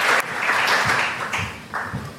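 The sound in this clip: Audience applause welcoming speakers and panelists at an event, a dense, steady wash of clapping with a few louder bursts.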